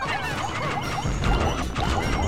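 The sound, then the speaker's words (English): Purple Pikmin crushing an object in the Pikmin video game: many chirpy, rising little creature sounds pile up over dense crunching and thudding impacts, loud and continuous throughout. “crush it with purple Pikmin!”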